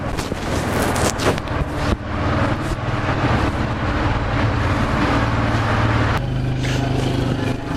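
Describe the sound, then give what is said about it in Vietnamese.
A motorbike engine gives a steady, rough mechanical drone that holds at an even loudness throughout, with a brief change in its tone near the end. “Có xe máy đây. Có xe máy hả?”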